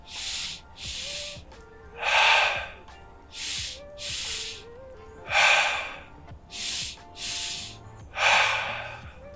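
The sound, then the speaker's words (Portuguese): Deep breathing in a guided exercise: slow, loud inhales and exhales alternate in a steady rhythm, each a broad airy rush, with a faint tonal background underneath and no talking. “Solta todo o ar. Dá uma pausa lá embaixo. Inspira normalmente.”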